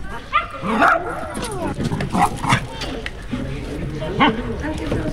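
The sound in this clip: A young dog nearly a year old yips and whines in high, sliding cries, with people talking over and around the sounds.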